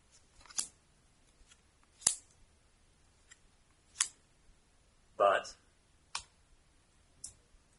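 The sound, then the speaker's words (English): Playing cards being dealt during a tabletop game, heard as a few sharp, crisp snaps spaced out one after another, each brief and clear. “Right, so I'm going to deal the first three cards.”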